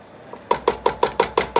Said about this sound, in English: okay, I'm tapping the blade on the edge, so if there's any onion on the blade, we can put it in the pot.